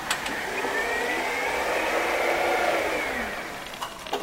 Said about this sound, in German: Und nicht erschrecken, da ist eine Maschine. Sollte die Sie irgendwie stören, rufen wir natürlich sofort die Wächter.